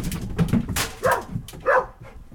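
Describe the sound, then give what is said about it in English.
A dog gives a few short, yelping barks with a whimpering edge, spaced irregularly and fairly loud, with no other sound around them. “Run, barked Stanley.”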